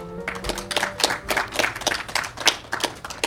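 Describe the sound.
An audience applauds to welcome a guest chef, executive chef of a contemporary gastropub, with a moderately quiet, steady patter of many hands clapping.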